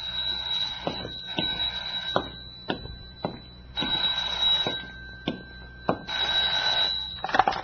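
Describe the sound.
A telephone rings with a steady, high electronic tone that runs through nearly the whole stretch, broken by several sharp percussive hits at irregular intervals.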